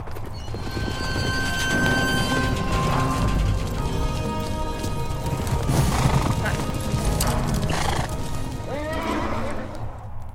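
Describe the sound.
Horses neighing and hooves clip-clopping as mounted officers pull up in city streets in a radio drama, with hoofbeats clattering continuously under a dense wash of sound and a high whinny near the end.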